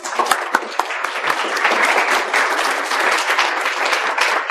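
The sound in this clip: Audience applause for a speaker at a lecture, dense and steady clapping that holds at an even, fairly loud level throughout.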